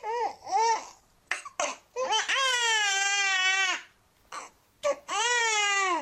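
A newborn baby girl cries just after a normal birth, loud wailing cries broken by short gasping breaths, with no other voices.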